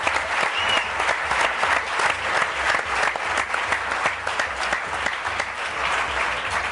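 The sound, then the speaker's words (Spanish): Audience applause greeting a guest introduced at an entertainment show: a full, even burst of many hands clapping that holds steady and fairly loud for the whole clip, with no talk over it. “Un aplauso para él.”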